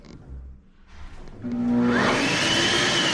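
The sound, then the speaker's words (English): A hand dryer in a restroom starts up after a few quieter low rumbles, rising into a loud, steady blowing roar with a whine that climbs in pitch and holds to the end. “that's a hand dryer.”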